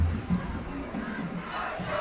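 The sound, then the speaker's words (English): Wildcat fans in a stadium roar at a college football home opener, a sustained, low, rumbling wash of cheering voices. “Here at Stewart, good crowd on hand tonight. Great to see all the Wildcat fans coming out for the home opener.”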